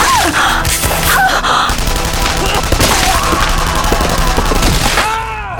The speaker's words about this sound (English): Sarah emptied the German machine pistol as she dove into the corridor next to John.